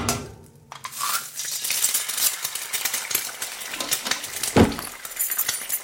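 Clinks and clatter of dishes, glass and cutlery during kitchen cooking, with stirring scrapes in an irregular, busy rhythm and one sharper, louder clink near the end.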